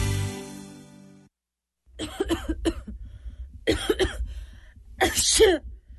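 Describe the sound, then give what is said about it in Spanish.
Harsh coughing from a person with an allergy, red eyes and nasal congestion. The coughs come in several rough bursts after a held tone fades out. “sábado en mi casa con esta alergia y esta tos que no me dejan respirar. No aguanto más. Ojos rojos, congestión nasal y tos.”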